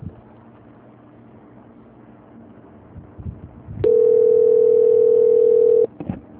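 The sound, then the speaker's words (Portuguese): A single steady telephone ringing tone sounds for about two seconds during a call transfer. It is a level, mid-pitched hum rising out of low background noise, with a couple of faint clicks just after it. “Só depende de São Paulo atender.”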